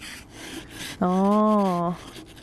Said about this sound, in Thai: ส่วนตรงนี้มันจะแข็งกว่าก็ใช้ขูดขูดขูดออกเนี่ย